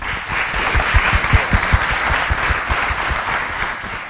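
Audience applause welcomes a new member to a panel discussion. Many hands clap in a steady, full burst that holds at an even level throughout, with no voices.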